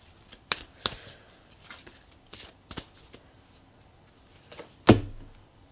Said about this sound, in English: pull a card for that